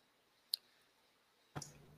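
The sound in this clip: Mouse clicks on a chat tab: two faint, short clicks separated by about a second of near silence, the second one duller and slightly longer.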